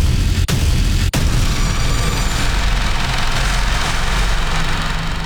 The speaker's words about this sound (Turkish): Bu sese kulak verin. Burası Ankara, Polatlı ve tatbikatın adı Atış Serbest ve karşınızda Panter Obüsü.